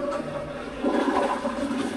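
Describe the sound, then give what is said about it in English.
A dual-flush toilet flushes in a men's room: a loud, steady rush of water that surges stronger partway through and keeps roaring to the end, with no voices. “equipped with dual-flush toilets. Saves a little water if you pull up, opposed to pushing down.”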